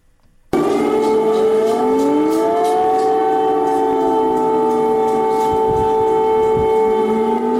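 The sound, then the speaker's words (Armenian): Air raid siren sounding over the city of Kyiv, a loud, sustained wail of overlapping tones that holds steady for several seconds without pause. “Ուկրաինայի մայրաքաղաք Կիևի բնակիչներին այսօր արթնացրել է օդային տագնապի մասին ահազանգող շչակը։”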